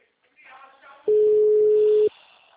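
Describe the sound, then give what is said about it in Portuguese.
A telephone busy signal heard when calling an engaged number: a single loud, steady mid-pitched tone lasting about a second, after a brief stretch of faint speech. “Tá ligando? O número está ocupado.”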